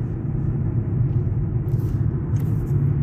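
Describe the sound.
Steady low rumble of a car on a road trip, driving out of Yosemite Valley. The deep engine and road drone holds constant, with no talk over it.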